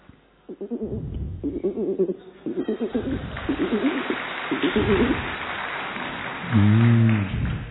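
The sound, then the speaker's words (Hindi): A voice imitating pigeon cooing: a run of rhythmic, throaty warbling coos in repeated bursts, fairly loud, ending with a short, louder humming coo. “कबूतर की आवाज अंदर ही अंदर गुटुरगु कर रहा है कबूतर”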